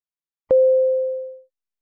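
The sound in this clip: Telephone ringback tone on an Italian call to a mobile phone: one steady, low, pure beep lasting about a second after a faint click, fading slightly at its end, with no voices.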